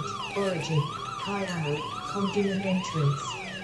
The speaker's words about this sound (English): Oh god, those alarms are awful.